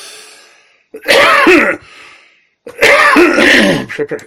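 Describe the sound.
A person with poorly functioning lungs coughs and clears their throat in two loud, harsh bouts separated by a quiet pause. Each bout is a rough, raspy burst lasting about a second.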